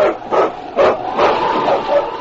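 A husky sled dog barks in a few sharp, yelping bursts, with a whining tone running between them; no talking.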